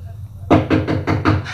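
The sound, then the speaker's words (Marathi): Knocking on a door: a quick, evenly spaced run of several firm raps. They begin abruptly after a moment of low hum and keep a steady rhythm to the end. “खरंच कुणी दरवाजा ठोठावला काय हो?”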